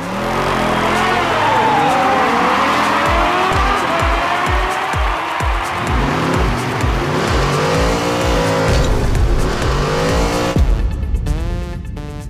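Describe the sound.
Cars driving in the Rocket League video game, with loud, continuous engine revving and repeated tire squeals and skids that rise and fall in pitch throughout, and no talk.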